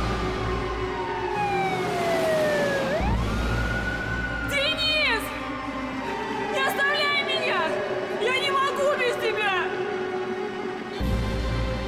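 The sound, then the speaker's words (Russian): An ambulance siren wails as it drives along a road. Long sweeping tones give way to quicker repeated warbling over a steady low rumble, loud and continuous throughout. “Скорая едет по дороге.”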